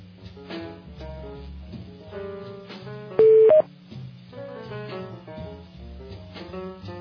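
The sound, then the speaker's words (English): Electronic conference-call tones sound as a caller joins: a loud longer beep followed by a short higher one, standing out sharply over a faint steady background. “Somebody else just joined us, it sounds like.”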